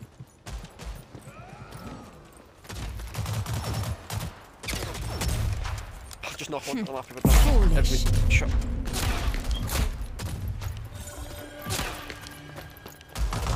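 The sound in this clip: Gunfire in a video game, with machine gun and pistol shots: many sharp bursts and cracks, loud and irregular, with voices mixed in among the shooting.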